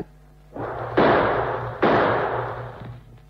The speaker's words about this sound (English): Maybe if I fire some shots, someone will hear.